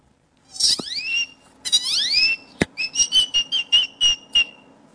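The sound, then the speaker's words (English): A person whistles an imitation of a great-tailed grackle: two long, rising whistled sweeps, a sharp click, then a rapid run of short, bright, repeated notes. The whistling is loud and clear, with no talk over it. “I started mimicking this great-toed grackle that was bothering my sister. And what does the great-toed grackle sound like?”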